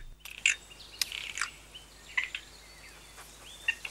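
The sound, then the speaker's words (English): A black bird with white flecks calls in a forest, giving a few short, high, sharp chirps scattered between quiet pauses. “Adventurer stops in the forest to observe a black bird with white flecks eating from a small hoard of nuts.”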